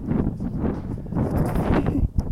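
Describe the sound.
Wind blowing across a microphone outdoors, a continuous low rumbling roar that surges and dips unevenly, with a brief drop and a sharp gust near the end.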